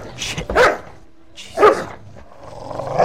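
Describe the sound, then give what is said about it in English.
A dog barking in a shop, a few loud, gruff barks separated by short pauses. “Stupid dog.”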